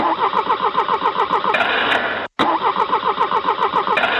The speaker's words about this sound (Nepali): Sir, यो generator नै start भइरहेको छैन।